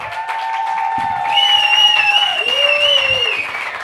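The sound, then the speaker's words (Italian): Audience applause at a comedy night, steady and fairly loud from start to finish, with some sustained tonal sounds riding over the clapping. “fatemi sentire con un applauso!”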